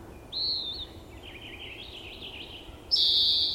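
A recorded bird call: a few high, thin whistled notes with a quieter, buzzy stretch between them, the last note loudest, over a low steady background hiss.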